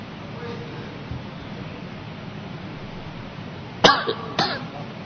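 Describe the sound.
A man coughs and clears his throat at a microphone during an Islamic religious lecture: quiet room hiss first, then two rough, loud bursts near the end, the first sharper than the second.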